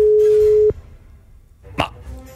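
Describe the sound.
Telephone ringback on an unanswered call to a colleague: one long, steady, loud tone that cuts off abruptly, leaving quieter line noise and a brief burst of sound.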